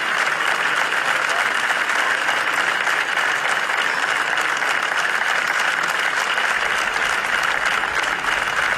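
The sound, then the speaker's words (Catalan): Outdoor crowd applause at the doors of Tarragona City Hall, following a midday minute of silence held in mourning. The clapping is dense and sustained, an unbroken, even wash of many hands at a constant level throughout. “És el so dels aplaudiments que han seguit el minut de silenci que s'ha fet avui al migdia a les portes de l'Ajuntament de Tarragona”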